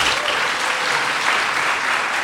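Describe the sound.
Audience clapping in response to a call to clap, a dense, steady wash of many hands that stays loud and even for the whole stretch, with no voices standing out.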